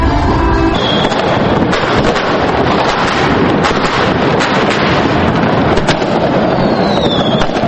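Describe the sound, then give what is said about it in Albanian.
Fireworks set off at New Year in Pristina, Kosovo, as a loud, dense, unbroken wash of crackling and booming noise, with heavy wind rumble throughout. “në momentin e ndrimit të vitit janë shkrepur fishek zjarët e shumëta.”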